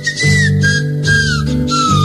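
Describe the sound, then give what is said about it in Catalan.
Shrill whistling made with the tongue between the teeth: a few sustained high notes, each sliding slightly downward, over a steady low drone, with no talk. “Sí, aquesta manera de xiular també, que és amb la llengua així entre les dents, aquesta cosa també crida bastant l'atenció.”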